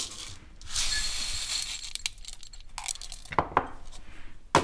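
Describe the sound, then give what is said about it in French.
A dry herbal mixture with 50 g of elderberries is poured into a glass jar: a sustained gritty rustle and rattle, then a few scattered clinks and taps against the glass. “Et on va les verser dans le bocal.”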